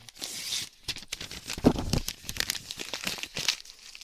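Paper crinkles and tears as a Christmas present is unwrapped, with irregular bursts of rustling and ripping and brief pauses between them.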